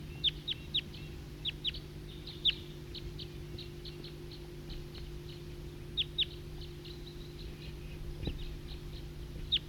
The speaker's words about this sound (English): It's recording flock of wild birds.